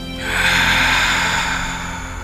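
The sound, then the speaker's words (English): One slow, deep breath taken during a stress-relief breathing exercise: a long, airy hiss that swells quickly, then holds steady and loud, heard alone with no talking. “Take a breath. I'm inhaling.”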